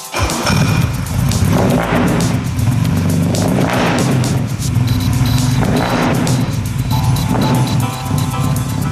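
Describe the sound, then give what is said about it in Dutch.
A car engine turns over after a key turn and runs with a little throttle, producing a loud, continuous rumbling roar with uneven swells in intensity throughout. “Draai het sleuteltje maar om. Heel klein beetje gas.”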